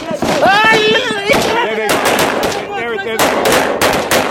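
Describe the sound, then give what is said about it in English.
Machine-gun and rifle fire from combat footage of battles, loud dense bursts of rapid cracks with voices shouting over the shooting. “I put together some clips of different battles that we've been in over there.”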